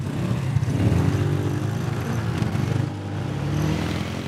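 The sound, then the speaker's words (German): A hot rod car engine accelerating on a hot rod tour event in Frankfurt gives a loud, continuous, throaty rumble. The revs dip briefly near the end, then build again. “Wir fahren noch ein paar Meter. Wir geben jetzt mal Kette. Und geben noch mal Gas.”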